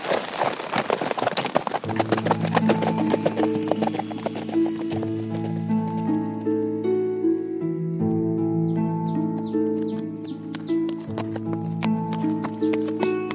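Steady hoofbeats of a ridden horse, a rapid clip-clop that runs through the whole stretch under sustained musical tones.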